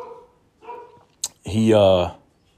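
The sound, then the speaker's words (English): A dog lets out a single loud, drawn-out bark after some quiet talk and a brief click, then the sound fades back to near silence. “But because of the girl's Apollo barking at something, as always, when I'm recording.”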